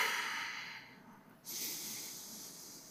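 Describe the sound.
A deep breath is taken during a pause for prayer. A soft, airy rush of breath slowly fades, then a second, stronger hissing breath starts abruptly and carries on, quiet and without any talk.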